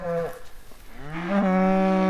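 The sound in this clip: A cow moos while cattle and calves are being herded between fences: a short low call, then a long, loud, sustained moo that swells and holds steady to the end.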